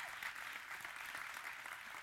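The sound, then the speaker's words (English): A church audience applauds in a soft, even wash of clapping that lasts the whole two seconds at low volume, with no distinct voices. “So we just applaud that.”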